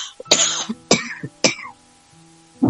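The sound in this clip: Throat clearing breaks into a spoken prayer: three rough, raspy bursts spaced about half a second apart, then a short pause and the start of another, over a faint steady hum.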